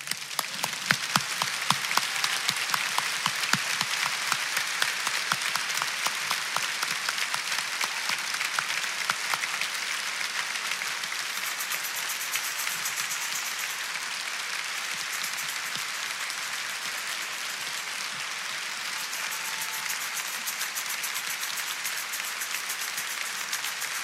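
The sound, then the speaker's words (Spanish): Loud, sustained applause from an audience at a church anniversary service: dense, steady clapping that continues evenly for the whole stretch and eases only slightly toward the end. “Así que yo les voy a pedir un fuerte aplauso para Jesucristo.”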